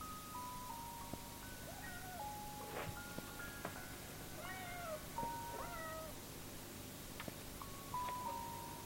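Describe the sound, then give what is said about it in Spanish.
A cat meows several times in short, tonal calls with varied pitch, faint against a steady low background. “Deja las fotos sobre el cofre y va hacia donde procede el maullido. Fuera del dormitorio hay un gato que se lame bajo el quicio de una puerta”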